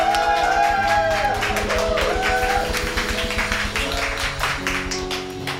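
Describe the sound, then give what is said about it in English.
A church audience applauding to welcome the pastor, with steady, dense clapping running alongside sustained music throughout. “Let's give him a big hand and welcome him here right now.”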